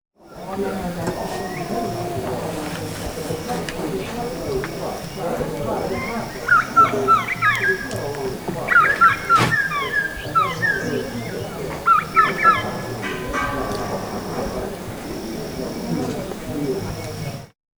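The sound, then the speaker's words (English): Brehm's tiger parrot calls at a lodge in Enga Province, Papua New Guinea, a few sharp, high whistled notes in short clusters over a steady murmur of about fifteen people eating below, with voices and clinking throughout. “That was Brem's tiger parrot and the sound of 15 people underneath me eating food.”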